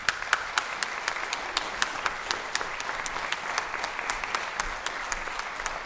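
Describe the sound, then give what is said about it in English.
Applause from an event audience welcoming the executive director to the stage: dense, steady clapping from many hands that holds at an even level throughout, with no voices over it. “put your hands together along with mine, and let's welcome our Executive Director, David Rutgers.”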